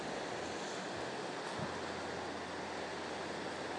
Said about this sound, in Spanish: Y aquí las olas, pues eso, aquí al lado de la playa.